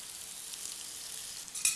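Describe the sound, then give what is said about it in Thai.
Bitter melon stir-frying in oil with garlic: a faint, steady high sizzle with soft stirring sounds, ending with one brief, sharper clink. “ใส่ลงไปนะครับนะครับผัดนะครับให้มะระสุกก่อนนะครับ”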